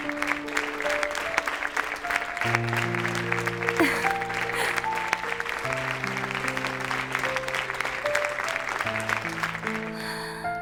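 An audience applauds with steady, dense clapping that continues throughout, over sustained music tones.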